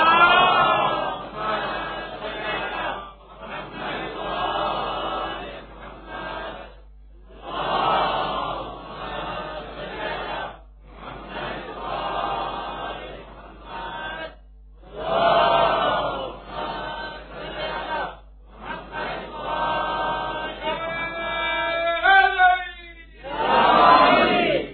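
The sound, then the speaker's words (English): An audience loudly recites salawat blessings together, three rounds requested, in several long, full-voiced communal phrases. The phrases are separated by short silences, with a low steady hum underneath. “Azizani Girami, can you please recite 3 salawats? So I turn to Urdu now, please. 3 loud salawats, please.”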